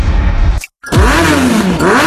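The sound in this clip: An Aurora motorcycle engine revving in a dealer advert: a loud growl cuts out briefly, then the engine roars back, its pitch climbing, dipping and swelling again.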